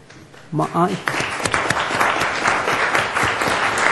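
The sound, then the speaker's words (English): Audience applause for event helpers: a brief spoken voice, then a full round of steady, dense clapping that carries through to the end. “They could stand so we can give you a round of applause.”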